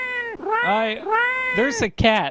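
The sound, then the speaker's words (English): A cat meowing repeatedly: several loud, drawn-out meows in quick succession, each with a wavering, bending pitch. “There's a cat. There's a cat. Get this cat out of here.”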